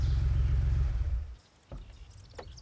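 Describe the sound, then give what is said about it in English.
A car carrying two people drives to a palatial family estate. A loud, low engine rumble fills the first part, then fades away sharply, leaving quieter scattered clattering and a few short knocks. “Paula drives Sam to her family's palatial estate, not knowing someone has been following her from the carnival grounds.”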